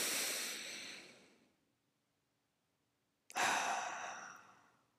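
Deep, airy breaths through the nose, heard as two long breaths separated by a pause of quiet. The first fades out gradually, and the second starts sharply before tapering off.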